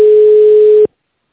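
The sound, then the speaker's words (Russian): A telephone ringback tone plays while the call waits on the line to be transferred to an operator: one steady mid-pitched beep lasting just under a second, then silence. “Или оставайтесь на линии, и мы вам ответим. Ждите на линии, пока выполняется перевод вызова оператору.”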